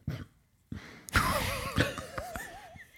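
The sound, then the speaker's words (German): A long, drawn-out belch from an adult, a human body noise, follows a few short throaty bursts and holds for over a second at moderate loudness with a wavering, wobbling pitch and some rough pulses, alone with no talking. “Aber Entschuldigung, dass du mittlerweile so alt bist, dass deine Körpergeräusche und deine Aufstoßgeräusche mittlerweile einfach so eine Story kaputt machen.”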